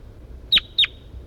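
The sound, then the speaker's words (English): Bird call: two short, high, identical chirps in quick succession, clear and bright above a faint, quiet background with no voices. “That's Bird 4-3,”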